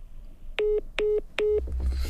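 Telephone tones sound while a dropped call is being redialed: three evenly spaced, steady electronic beeps of equal length and pitch, each bright with harmonics, followed by faint line noise.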